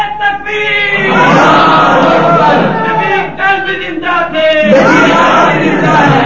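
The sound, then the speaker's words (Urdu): A large crowd at a rally chants the Nara-e-Takbeer, roaring "Allahu Akbar" in loud massed voices. Long sustained shouted surges rise and break off, then swell again. “نعرہ تکبیر اللہ اکبر، یہ نعرہ ہر جلسے کا جوش بناؤ، ہمارے نبی کل بھی زندہ تھے، بلند آواز سے نعرہ تکبیر”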